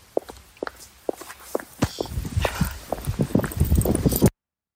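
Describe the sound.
Footsteps of a woman walking, many steps in an even rhythm, growing louder and denser before cutting off abruptly.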